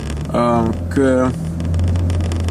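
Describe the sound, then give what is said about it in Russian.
A car engine idles in a stop-and-go traffic jam, giving a low, steady hum, while a voice is briefly heard over it. “А мы немножко в трафике стоим.”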